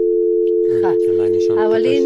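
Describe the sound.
A telephone busy tone after a call has been cut off, a loud, steady, unbroken mid-pitched electronic tone throughout, with voices talking over it from partway through.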